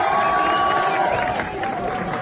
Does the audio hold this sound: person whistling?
no